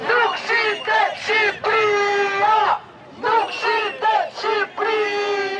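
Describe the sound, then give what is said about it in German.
A crowd of protesters chants a slogan in unison at an evening anti-government march in Albania, with loud, rhythmic shouted phrases repeated in bursts and short pauses between them. “Albanien ist nicht zu verkaufen, rufen die Demonstranten.”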